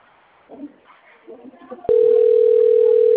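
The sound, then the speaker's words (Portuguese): A telephone call's ringing tone cuts in after a moment of faint, murmuring sound: a single loud, steady tone holding one pitch without a break to the end. “Ei, tá chamando.”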